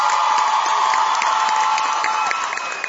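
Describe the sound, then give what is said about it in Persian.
An audience claps in honour of a singer at a live music performance, dense and loud, with steady applause and crowd noise that thins slightly toward the end. “به افتخارش دست بزن”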